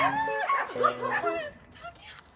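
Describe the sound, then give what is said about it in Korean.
Newborn puppies and their mother dog whimper and yip in a quiet countryside village, with loud, high, wavering whines that rise and fall in pitch, then fade to softer, sparser cries. “산책길에 자주 마주치던 강아지가 그새 새끼를 낳았네요.”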